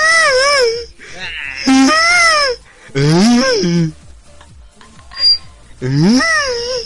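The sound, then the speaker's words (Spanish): Someone cries and sobs loudly in several wailing bursts, each with a wavering pitch that often falls, separated by short breathy gaps. “pide la perdón, que se pone a llorar.”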